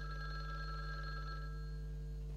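A telephone rings with steady, continuous electronic tones held over a low, constant hum, faint and even in level, with no talking.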